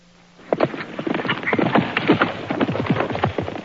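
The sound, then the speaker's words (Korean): Horse hooves clatter during a horse-riding demonstration at a military volunteer enlistment office. A dense, fast, irregular run of many hoof strikes begins after a brief quiet start and continues to the end with no talk. “수염까지 붙이고 멋지게 말타기 시범을 보인 아키는 합격했습니다.”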